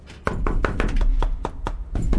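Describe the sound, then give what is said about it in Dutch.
Knocking on a door at a Sinterklaas celebration, a rapid, steady series of many hollow thumps over a low background rumble. “Klopt iemand aan de deur? Ja.”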